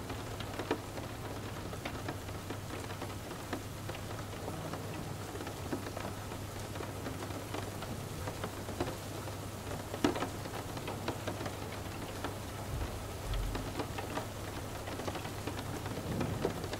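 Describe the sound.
Steady rainfall used for sleep meditation, a soft, continuous hiss of drops pattering on surfaces with scattered sharper taps, fairly quiet and unbroken.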